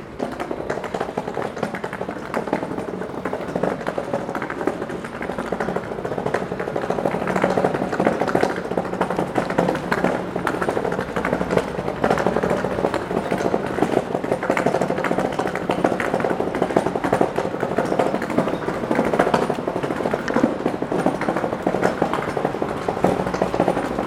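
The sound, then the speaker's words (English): Wheels roll over brick pavement on a city street under a light drizzle, a steady, dense rattling and bumping that runs continuously at an even level with rapid small impacts and no voices. “We're about to come upon some bricks where you'll hear the wheels.”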